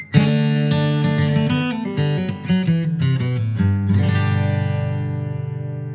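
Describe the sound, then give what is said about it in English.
Bluegrass flatpicked guitar lick moving from a D shape and resolving to a G chord, a brisk sequence of plucked notes and hammered slides followed by a sustained, gradually decaying final chord. “Now these are both resolving to a G chord.”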